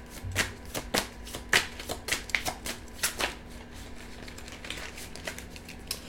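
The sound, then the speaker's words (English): Tarot cards, stiff and sticking together, are shuffled and handled, giving a patter of sharp papery clicks and riffles, fairly faint, busier at first and thinning toward the end. “May I have two cards, please? And these cards really stick together.”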